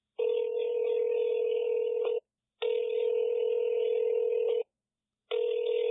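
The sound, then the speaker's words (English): Ringing tone of an outgoing phone call: two steady buzzing tones of about two seconds each, separated by short silent pauses, then a third tone that begins as the sound ends. “But let's give him a call. Let's see what he's up to. Let's see if he answers.”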